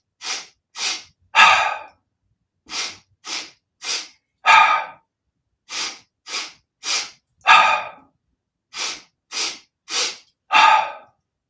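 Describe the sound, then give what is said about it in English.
Deep breathing exercise with inhales and audible exhales through the mouth, in four rounds. Each round has a few short, sharp breaths and ends with a longer, louder exhale. No talking. “an audible exhale out through the mouth. So one round just looks like this. And that's it. And so let's do a few rounds together. So inhale.”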